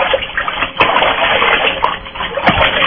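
Water splashing and sloshing while someone being bathed is rinsed off after a scrub, a steady wet wash with a few louder splashes standing out, and no talk over it.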